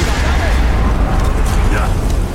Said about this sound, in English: The dragon? Yeah, he's breathing fire. He's burning the whole village down. That's what I'm saying. He's burning everything down.